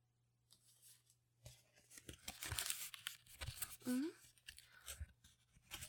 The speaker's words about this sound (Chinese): 好像还有包装要拆开啊。